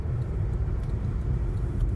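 A car driving home gives a continuous low road and engine rumble, steady and fairly quiet, with no talking.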